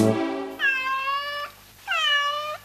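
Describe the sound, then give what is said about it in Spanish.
A cat meows twice, each call a drawn-out, clear, tonal mew lasting about a second, separated by a short pause and preceded by a brief low sound. “¿Qué es? El gato que maulló.”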